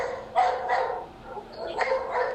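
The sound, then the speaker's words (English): A dog barks several times in short, sharp bursts separated by brief pauses, moderately loud against a quiet background. “excuse the dog”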